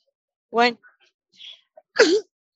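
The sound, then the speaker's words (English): A single short, sharp sneeze bursts out, with brief voiced sounds just before it and quiet gaps in between. “Bless you.”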